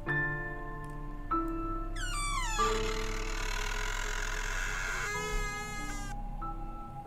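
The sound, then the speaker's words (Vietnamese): A strange creaking noise comes from a bedroom door at midnight, two drawn-out squealing bursts with sliding pitch over a low, steady hum, and no voices. “Nửa đêm, khi đang thiêu thiêu ngủ, thì bất giác cửa phòng của Như cũng vang lên tiếng kêu kỳ lạ.”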